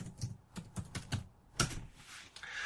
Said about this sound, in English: All right, so I don't know why they're not on this page, but I'll type it in the chat window for you guys.